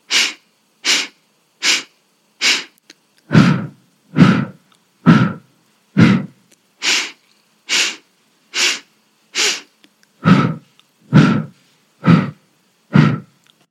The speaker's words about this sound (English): we're going to begin a four-part pulse breath. Four inhales through the nose and four exhales out the mouth